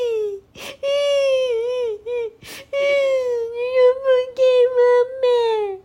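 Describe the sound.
A young child crying in a children's story: long, loud, wavering wails broken by a couple of sharp gasping breaths, then shorter choppy sobs.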